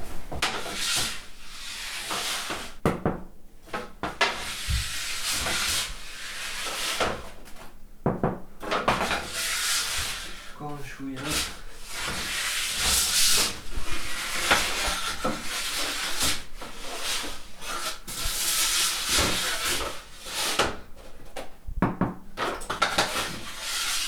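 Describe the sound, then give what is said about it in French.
Rustling and clattering as a bread loaf is taken out of a hot oven at 200 to 220 degrees, with a few sharp knocks and bangs over a steady hiss throughout. “il sort du four, il est à 200, 220 degrés.”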